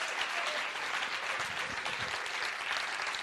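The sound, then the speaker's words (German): Sustained applause at a church service, thanking the worship music: dense, even clapping fills the whole clip at steady loudness, with no talk over it. “Geben wir der Moni auch mal einen kräftigen Applaus für den Lobpreis heute.”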